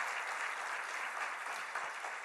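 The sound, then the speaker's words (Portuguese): Congregation clapping for Jesus during a church service, a steady, fairly faint hiss of many hands applauding evenly throughout, without voices. “Quem pode dizer amém, dá uma salva de palmas para Jesus?”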